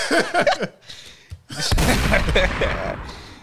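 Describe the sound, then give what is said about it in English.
A gunshot sound effect: brief talk gives way to a sudden loud burst of gunfire, a dense rattling salvo that holds steady and slowly fades. “Was shots fired. Oh shit, it's real smoke for this.”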